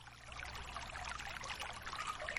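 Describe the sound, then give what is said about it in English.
Water flowing in a soft, steady trickling rush, faint and continuous with no break. “Just listen to the sound of the water flowing through the middle of your body, sweeping away any tension”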